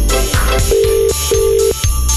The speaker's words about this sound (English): Sorry, I'm just dialing in.